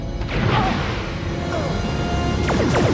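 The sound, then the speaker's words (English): Starship Voyager fires torpedoes in a Star Trek scene: a few sharp whooshing bursts, one early and a quick cluster near the end, over a dense rumbling sci-fi background. “And Voyager to the rescue, firing some torpedoes.”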